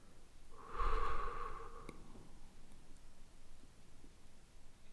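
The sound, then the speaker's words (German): A deep, complete exhale after a held breath during a breathing exercise: one loud, breathy rush of air that tapers off into quiet background hiss. “beim nächsten einatmen, ganz tief Luft holen. Und kurz innehalten und dann komplett und tief ausatmen.”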